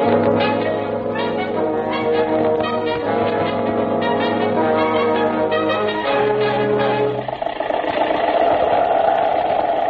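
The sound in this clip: An early motor car engine runs while driving on a dark road, giving a loud, steady mechanical drone with a rhythmic pulsing chug. Its texture roughens and thickens for the last few seconds.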